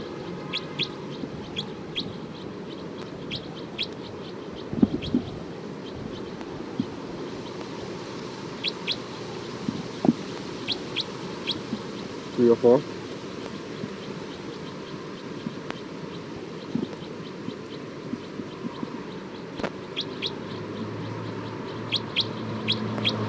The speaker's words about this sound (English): This is alarm calls of bird 304.